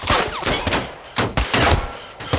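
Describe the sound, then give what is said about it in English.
Gunfire from police weapons in a shootout: many sharp, loud shots in rapid, overlapping bursts, crackling in irregular clusters throughout. “Bullets from police fire rain down around on them.”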